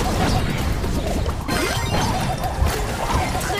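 Bombs explode in a video game, a dense stream of crashing, smashing blasts that overlap almost without pause, loud and harsh throughout.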